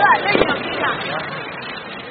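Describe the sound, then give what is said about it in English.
Industrial-grade sparklers rain down sparks at a night festival, a harsh crackling fizz that runs steadily beneath a man's narration. “As a first test, I walk beneath a rain of industrial-grade sparklers. It burns like hell.”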